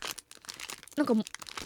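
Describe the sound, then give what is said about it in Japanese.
Crinkling foil as a chocolate package wrapped in butter-style gold and silver foil paper is opened, with short, fairly faint rustles and crackles under a speaking voice. “お、開きました。あ、なんかパッケージはね、あのバターの銀紙、金紙っていうんですか、あるじゃないですか、それに包まれてて3つ入ってる。”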